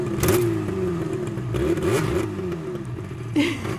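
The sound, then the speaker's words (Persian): A motorcycle engine revs in repeated surges, its droning pitch rising and falling with some mechanical clatter; the bike had sat broken for a year and has just been repaired and started. “ایوای موتور باباییه.”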